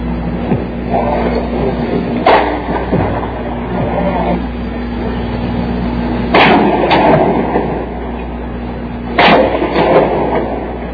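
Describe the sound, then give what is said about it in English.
Gunshots fired at and from a tower over a city mall ring out as several sharp cracks in small clusters, each standing out above a constant low rumble of background noise. “More shots being fired at the tower and from the tower.”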